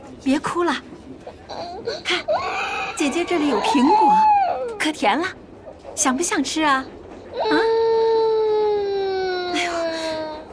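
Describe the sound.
A young child cries in drawn-out, wavering wails with sobbing breaks, ending on a long, sustained high cry. Adults talk over and between the cries.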